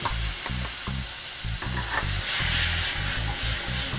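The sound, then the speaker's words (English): Chickpeas sizzling as they go into a hot pan for a simple spiced Indian dish: a dense, steady frying hiss that swells slightly in its second half, with no voices. “So now we're going to add in our chickpeas.”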